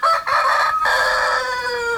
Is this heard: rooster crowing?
yes